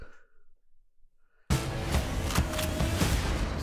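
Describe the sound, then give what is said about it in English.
Gunfire in the Zombieland: Double Tap film trailer erupts suddenly after a quiet, faint opening, with many sharp shots cracking over dense, loud noise until the end. “Like it's got all these graphics that go with it as they're kind of like just you know a grassy field, and then the shooting starts.”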